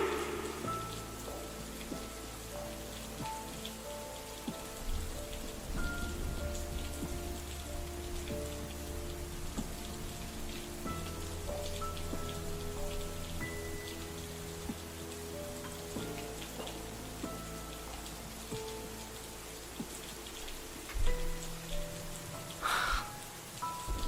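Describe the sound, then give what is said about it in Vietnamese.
Heavy rain falls in a soft, steady wash of patter and drips, holding an even level throughout with no voices. “Thôi tạnh mưa đi em ơi, tạnh mưa đi. Em ơi tạnh mưa đi.”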